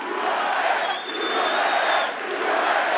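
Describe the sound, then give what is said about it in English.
CPAC audience roars and chants during a Trump speech, a loud, sustained wall of crowd voices that dips briefly midway and then swells again. “the CPAC audience was fully on board, chanting at various points, "Build the Wall," or "USA."”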